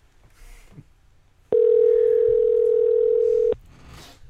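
A loud, steady telephone tone holds for about two seconds while calling someone back, with faint brief sounds before and after it.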